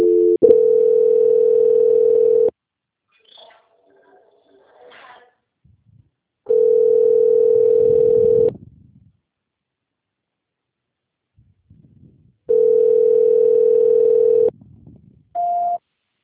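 Telephone tones during a call transfer: three steady, level tones of about two seconds each, separated by near-silent pauses with faint clicks, then a short higher beep at the end.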